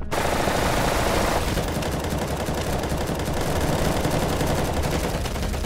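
Heavy automatic gunfire erupts in a battle scene from an audio drama. Continuous machine-gun bursts and a barrage of shots stay loud and unbroken for the whole stretch.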